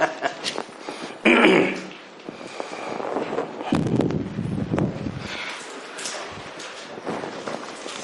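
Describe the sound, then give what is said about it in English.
Loud breathing straight into a microphone, a series of rough, windy breaths and puffs at irregular intervals, some heavier bursts standing out among softer exhalations. “Boy, I make a lot of noise when I breathe, don't I?”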